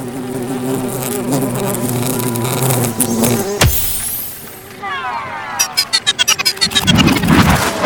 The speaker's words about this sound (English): Those bugs are huge! They can't fit through these bars.